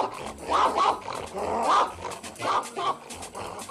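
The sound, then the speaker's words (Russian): A boxer dog barking and spitting, several rough, gruff barks with a growling edge, spaced irregularly, loud and with no voices. “Брызжа слюной, боксер лает на быстро идущие ноги.”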